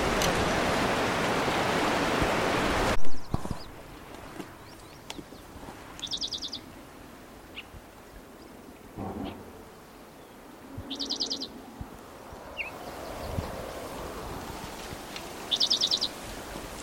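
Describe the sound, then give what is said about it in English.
A bird calls with a few short, high, chirpy trills spaced several seconds apart. The calls are faint against a quiet background, after a loud hiss that cuts off at about three seconds. “I can't see the bird, so I don't know where he is.”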